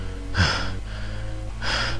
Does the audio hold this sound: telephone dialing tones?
no